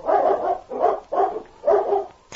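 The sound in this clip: Four loud, rough barks from large dogs, evenly spaced with short gaps between them, each bark a full, throaty burst.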